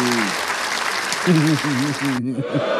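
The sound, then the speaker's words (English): A canned applause sound effect plays as a dense, steady burst of clapping with a man talking over it, then cuts off abruptly near the end. “Play that clap.”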